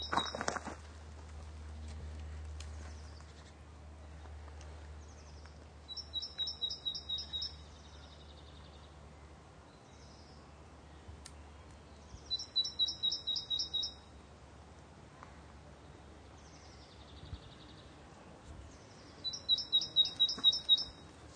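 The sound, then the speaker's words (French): Great tit calling in woodland with tall trees, its bright, high, repeated phrases coming in several short rhythmic bursts separated by quiet gaps, over a faint steady low hum. “Que la charbonnière. Tu vois, on entendait la note là.”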